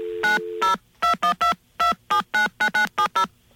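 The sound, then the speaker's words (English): Touch-tone telephone dialing of 0 plus the 212 area code for operator assistance into New York City: a quick run of twelve short, clipped beeps in an uneven rhythm, clear and alone. “when you're getting operator assistance into New York City, you have to dial 0 plus 212.”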